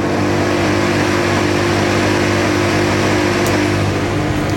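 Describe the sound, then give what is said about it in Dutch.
Formula 1 cars revving their engines together on the starting grid just before the race start: a loud, dense, unbroken roar of overlapping engines that stays steady throughout, with no talk. “Kijken naar de lampen. Toeren omhoog, alles op groen.”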